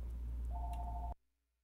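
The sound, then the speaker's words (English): Faint telephone ringing in the background during a conversation: a steady electronic tone sounds briefly over a low hum and then cuts off abruptly. “sorry, I had a phone in the background there”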